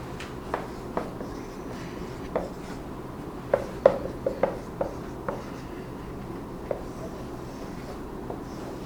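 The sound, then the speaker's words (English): Drawing on a board makes faint scratchy strokes and light taps, with a brief cluster of slightly louder strokes in the middle, over a low steady background hum. “So I'm drawing up on the board two big kind of an oblong thing.”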